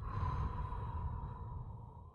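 A slow, soft exhalation during a guided progressive muscle relaxation exercise: one gentle breath out over about two seconds, fading gradually, with a faint steady hum beneath it.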